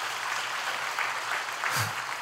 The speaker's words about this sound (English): Go ahead and applaud for that if you like.